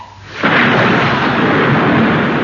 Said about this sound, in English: But I must also tell you something about the weather. It's going to be pretty filthy. That's all right. I'm broad-minded. At that moment, the storm burst.